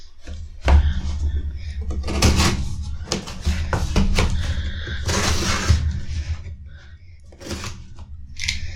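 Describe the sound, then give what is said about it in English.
A knife slicing open a cardboard box, with scratchy cutting and rustling broken by several sharp clicks and thumps of varying loudness. “All right, well, let's just start with a random box. Go ahead and... I'll open this one.”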